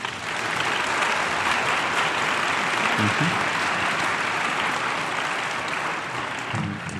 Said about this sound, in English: And I'd like to ask you to give them a hand, the group of people who came and brought us together tonight.